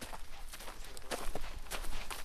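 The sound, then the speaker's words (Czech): Footsteps crunch through a forest in the Krkonoše foothills as evening falls. A series of soft, uneven steps on the ground continues at a walking pace for a couple of seconds. “Jdu lesem už nějakou dobu.”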